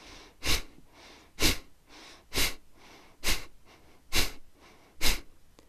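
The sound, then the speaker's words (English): Breath of fire breathing exercise: six sharp, forceful exhales are pumped out from the core muscles at a steady, quick rhythm, with quiet passive inhales between each puff. “And try not to think about the inhale, that just happens naturally. Rather, think about pumping the breath out through your core muscles. It sounds something like this.”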